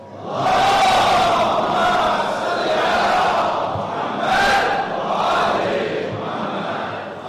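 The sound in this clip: A crowd at a religious gathering reciting a loud salawat in unison, a powerful chorus of many voices rising and falling in a few waves over about seven seconds.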